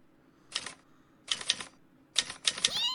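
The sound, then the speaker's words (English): Someone typing while writing a script: three separate bursts of sharp, clattering key strikes with short pauses between them, fairly quiet overall. “Oh my God, you're writing. I'm watching genius unfold.”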